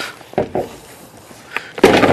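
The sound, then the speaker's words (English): A pike pole punches out a corner of cut plywood during a firefighter roof-ventilation exercise, and the piece swivels up and falls into the new hole. A few sharp, hollow wooden knocks follow, the last one loudest and longest. “I punch a corner of the plywood, it swivels up and falls down into the new hole”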